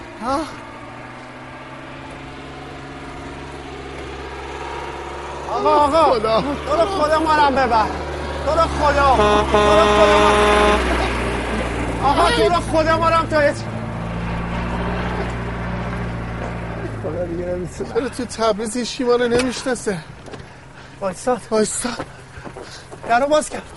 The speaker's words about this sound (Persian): صدای موتور برقه صدای ماشینه موتور برق مینی بوسه